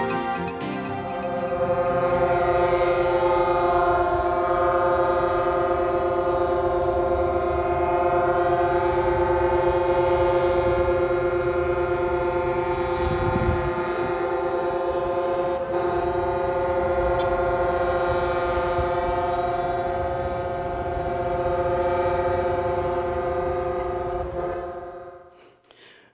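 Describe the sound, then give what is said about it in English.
Truck horns blaring during a trucker protest convoy heading into Ottawa, Canada: a loud, sustained, chord-like horn drone lasting nearly the whole clip with hardly a break. “Okay, that is the sound of the trucker strike that's happening up there in Canada as truckers stretched across the country going into Ottawa”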